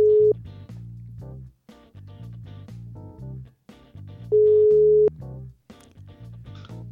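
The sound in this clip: Telephone line tone while a call is being placed: two steady mid-pitched tone pulses, a short one at the start and a longer one later, sounding over rhythmic background music.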